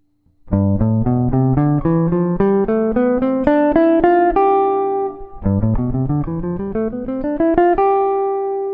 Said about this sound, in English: So essentially, we're starting the C major scale on a G and ending on a G, and that's called the Mixolydian mode. So it sounds like this.